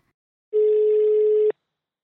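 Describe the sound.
A single ringback tone sounds while a telephone call is being placed: one steady, even-pitched tone lasting about a second, alone and clear, followed by silence.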